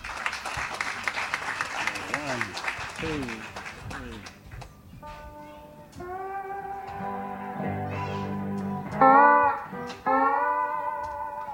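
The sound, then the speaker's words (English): Audience applause for musicians at a klezmer performance fills the first few seconds as a dense, steady clatter. Sustained tonal sounds with sliding pitches then take over. “So let's give them a big hand of support.”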